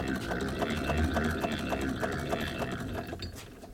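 Old machines running, giving off a rapid, even mechanical clatter over a steady whirr that continues throughout and fades slightly at the end.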